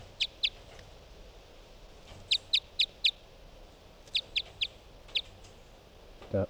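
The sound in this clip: Bird song recorded in a numbered-bird recording session: short, high chirps come in a few brief clusters separated by pauses. The calls are clear but modest in level over a quiet background hiss.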